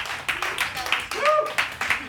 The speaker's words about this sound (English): Clap your hands for your round two competitors once again.